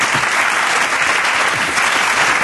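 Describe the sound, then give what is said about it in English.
Applause from an audience: dense, steady clapping that holds at an even, fairly loud level for about two and a half seconds, with no talking over it. “I think this deserves an applause. Yes, I think you deserve it.”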